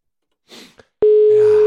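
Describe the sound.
A telephone dial tone sounds as a steady, single-pitched hum that holds unbroken to the end. It follows a few soft rustling clicks.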